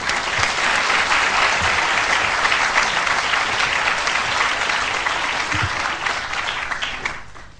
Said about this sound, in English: Please join with me in giving him a very warm welcome.